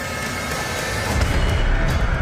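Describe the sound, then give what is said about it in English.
Loud, dense rumbling sound design from the movie trailer for Escape Room: Tournament of Champions: a continuous wash of noise with deep booming low end that swells slightly in the second half. “What is that, the trailer that we just heard for, Lowry? We just heard the trailer for Escape Room Tournament of Champions”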